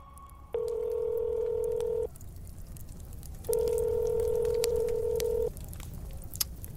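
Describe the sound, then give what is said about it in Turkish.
Ringback tone of a telephone call that goes unanswered: two long, steady mid-pitched beeps of about two seconds each, separated by a pause, over faint background noise. “11.30 civarında Helen Mary'yi aramaya karar verdi.”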